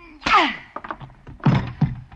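Heavy thuds of blows striking a person during a fight, following a short vocal cry; a few muffled thumps, the loudest two landing close together near the end.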